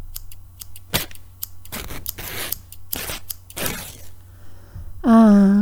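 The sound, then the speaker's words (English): Scissors snip through clothing in a few crisp, sharp cuts at irregular intervals with quiet gaps between them, and a loud, brief tonal sound comes at the very end. “Thankfully, I have this scissor here to cut them off.”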